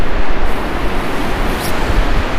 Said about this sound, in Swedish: Vad gör Älvsbrus med dig och ditt huvud? Ja, det väcker känslor, minnen. Det känns hemma.